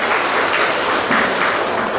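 A church audience claps to welcome a newcomer to their gathering, a loud, dense and even wash of hands that holds steady throughout without voices.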